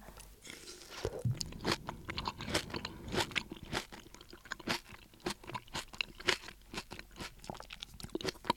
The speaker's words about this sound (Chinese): 那么现在来看一下它在白菜和豆腐在这些食材之下的表现力是如何吧。先吃一点白菜，